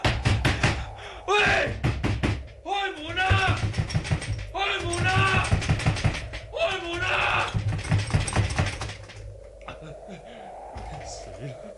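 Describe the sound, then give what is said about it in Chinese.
Someone bangs repeatedly on a locked door. Rapid runs of hard knocks come in bursts, with a voice speaking between and over them. “拍佢都冇人听见嘅，我试下用脚睇下踢唔踢得开佢。”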